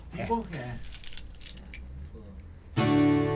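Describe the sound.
Keys jangle and clink while a beer bottle is being opened with a set of keys. Brief voices come first, then scattered metallic clinks, and a loud sustained tonal sound takes over at the end.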